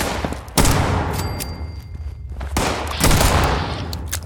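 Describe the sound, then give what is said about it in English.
Video game gunfire in a mine level: loud, dense bursts of rapid shots, broken by short lulls where the firing thins out, with no voices. “Oh no, I gotta reload! It's a good thing I can absorb a number of bullets.”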